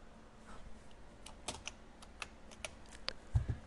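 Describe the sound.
Faint typing on a keyboard by an office worker. A few soft, irregular key clicks are spread out, with a heavier low thump near the end, and no talk.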